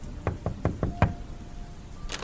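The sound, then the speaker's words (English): Knocking on a house door: five firm, evenly spaced knocks with a low, hollow thud, followed by a quiet pause. “at 6 o'clock I pulled into his driveway and knocked on his door.”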